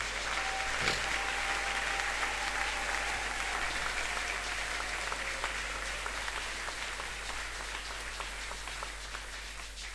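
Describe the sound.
A church audience applauding together: dense, continuous clapping that holds steady for about ten seconds and eases off only slightly toward the end.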